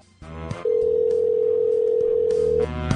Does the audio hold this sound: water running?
no

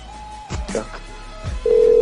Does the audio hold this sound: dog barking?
no

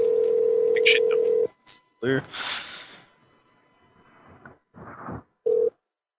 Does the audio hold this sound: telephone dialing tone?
yes

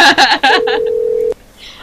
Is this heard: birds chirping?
no

